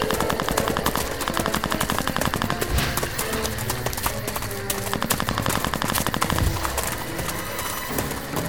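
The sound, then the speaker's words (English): Machine-gun fire crackles through a radio-drama shootout, with dense, rapid bursts of shots running continuously and loudly from start to finish. “Stay down, you're gonna get hit by a stray shot.”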